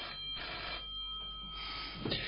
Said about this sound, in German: Nehmen Sie sich des Telefons an